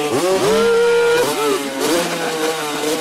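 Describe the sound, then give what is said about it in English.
A motorcycle engine revs as its raised rear tire spins. The pitch climbs sharply and holds, then a few shorter revs rise and fall after it. “He revs it as he raises the back tire over Clyde's head.”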